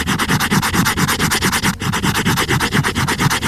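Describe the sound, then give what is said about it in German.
Rapid, regular rubbing strokes across a hardcover book binding, a dry scratchy sanding texture repeating many times in an even rhythm, loud and steady with no voices. “Ein Hardcover-Einband von einem Buch.”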